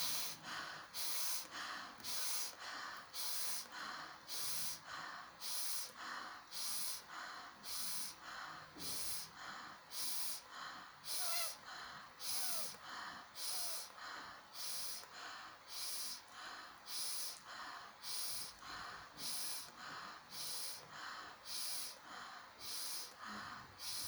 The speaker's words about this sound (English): Inhale through the nose, exhale through the mouth.